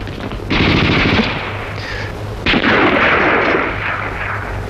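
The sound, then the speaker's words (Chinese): Rapid automatic gunfire erupts during an armed confrontation at a village checkpoint: two loud, dense bursts of machine-gun fire, the second starting midway, with continuous crackling reports and a low rumble underneath. “不站住开枪了！ 现在开！”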